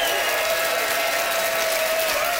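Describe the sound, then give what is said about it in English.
Audience applause voting for a contestant at a live comedy debate show: a dense, continuous wash of clapping that stays loud and even, with a faint steady tone running through it. “It is up to the audience to vote. By applause, who enjoyed Don giving two hoots for night owls?”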